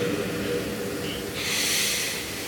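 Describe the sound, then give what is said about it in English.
A deep breath taken during a grounding exercise: one long, airy, hissing inhale swells in the second half and then eases off, over a steady low background noise. “maybe we can start by just taking a deep breath, right? Deep breath.”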